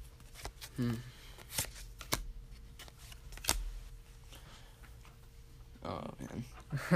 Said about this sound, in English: No, I'm just sorting out cards while we're talking.